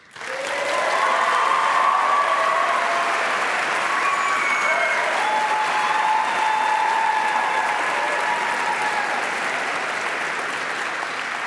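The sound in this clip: Audience applause greets an 18-year-old violinist: a burst of clapping starts abruptly, then stays dense and steady for around ten seconds before easing slightly at the close.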